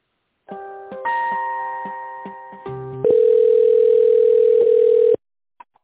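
Telephone line tones play while an office call is transferred to the office manager: several stepped electronic tones give way to one long steady tone, followed by a couple of brief faint clicks after it stops.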